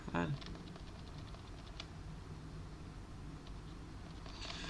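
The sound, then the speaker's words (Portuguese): Keys tapped on a computer keyboard, a few light, scattered clicks at a soft level against a steady background. “Eu ia dar o F5 aqui, escrever F5”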